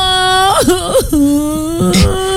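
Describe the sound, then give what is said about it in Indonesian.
A child crying in loud, drawn-out whimpering wails, a wavering voiced tone broken by short sobbing catches. “Adek, nangis kenapa?”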